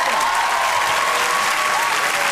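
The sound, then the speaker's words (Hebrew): Audience applause at a stand-up comedy show: dense, loud clapping from many hands, continuous and even throughout the short stretch. “איפה כפיים”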